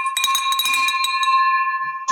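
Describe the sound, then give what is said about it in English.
A bell rings inside a building: one strike gives a bright metallic tone with several steady overtones that hold for about two seconds. Light clattering sounds in the first second, and a short new noise comes in at the end. “that's the first bell of many. People in this building, I'm telling you, hate that bell.”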